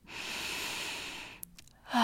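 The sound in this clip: One long, deep breath drawn in as a steady airy hiss for over a second, followed by a few faint clicks and the start of another soft sound.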